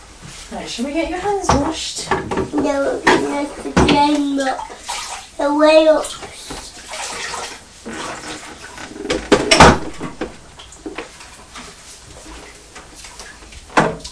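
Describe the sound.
Water runs from a tap during handwashing, a steady splashing hiss that continues throughout while a child and other voices talk over it.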